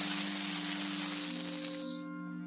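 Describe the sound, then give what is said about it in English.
Aerosol can of Superfoam shaving soap spraying, a loud steady high hiss held for about two seconds before cutting off, with soft sustained tones underneath. “There was an aerosol can of Superfoam shaving soap belonging to his father. George loved playing with aerosols. He pressed the button and kept his finger on it until there was nothing left.”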